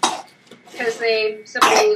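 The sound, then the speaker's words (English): A baby's coughing fit: short, rough bursts at the start and end, with a strained voiced whimper between them, fairly loud. “Sorry, we just had a little bit of a baby coughing fit there.”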